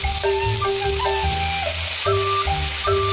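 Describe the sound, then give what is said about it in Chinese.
Loud, steady sizzling of ginger, scallion, onion and dried chilies stir-frying in beef tallow in a wok, a continuous hiss with a few scraping stirs running through it. “烧熟后再加入适量牛油，加入姜、葱、香菜、洋葱、大葱、2斤条海椒，炒香”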